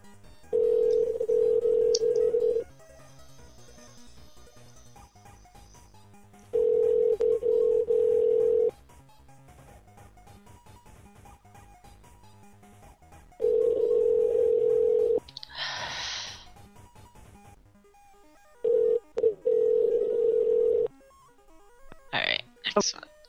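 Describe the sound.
A telephone call rings out with four long bursts of steady, low ringback tone separated by regular pauses of a few seconds. Brief voice sounds break in between and after the rings.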